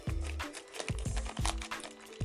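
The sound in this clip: Plastic crinkles and rustles as a Lego minifigure blind bag is cut open, with a few dull low knocks breaking up the crisp handling noise.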